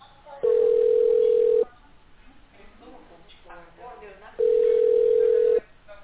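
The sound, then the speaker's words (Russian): Ringback tone on a telephone line while an outgoing call is being placed: two long, steady, even-pitched tones of about a second each, separated by a pause of a few seconds, with thin, narrowband phone-line quality. “Будем дозваниваться. Оставайтесь на линии.”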